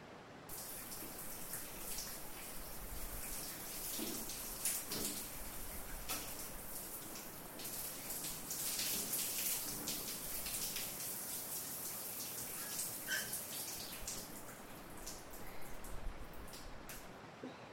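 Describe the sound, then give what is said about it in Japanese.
Water poured over a body to rinse it after washing, a steady soft splashing hiss with scattered faint splatters, at low level throughout. “体洗い終わっちゃいましたね。はい、お流しいたします。”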